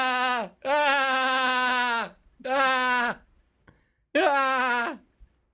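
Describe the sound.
A human voice imitates a goat bleating: four loud, quavering, nasal bleats separated by short gaps, the second held longest.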